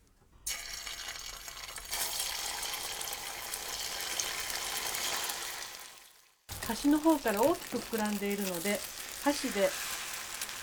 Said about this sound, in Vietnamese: Chú ý phải làm nóng chảo trước khi đổ phần hỗn hợp trứng vào.